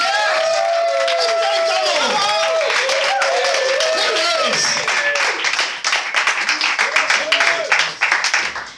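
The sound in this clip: An audience at a comedy show applauds and cheers to welcome a comedian onstage: dense, loud clapping with whooping voices, staying full for several seconds before thinning into more scattered claps.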